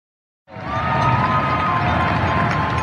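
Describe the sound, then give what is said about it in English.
Applause and cheering for healthcare workers in New York at the nightly 7 o'clock tribute start abruptly after a moment of silence, then hold as a steady crowd roar with a thin sustained tone running through it. “That's the sound of applause for our healthcare workers. Every night around 7 o'clock in New York, people in many other cities and countries around the world are doing the same, cheering on and thanking those on the front lines.”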